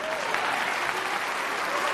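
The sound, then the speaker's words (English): A crowd of people claps in an even, dense wash of applause that stays loud and unbroken from start to finish, with some crowd noise mixed in. “Why are you clapping? Why are you clapping? Why are you clapping?”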